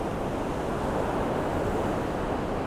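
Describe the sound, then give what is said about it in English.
Ocean waves break on the shore at Bondi Beach on a morning, a steady, loud wash of surf that never lets up, with wind noise mixed in. “this beautiful morning down here on Bondi Beach, and I'm going for a swim”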